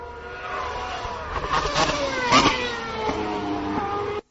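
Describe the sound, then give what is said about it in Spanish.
A Lotus Renault Formula 1 car engine makes a clean downshift: a high, buzzing engine note steps down in pitch through several gear changes, each marked by a short rev blip, before cutting off. “Bueno, ese es un Lotus Renault, una bajada de marcha bastante limpia.”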